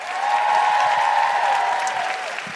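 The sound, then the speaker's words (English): Applause from a comedy show audience, a full, even patter of clapping that stays steady and only eases slightly toward the end. “And a big round of applause for Michelle Ryan. And Nikki Britton.”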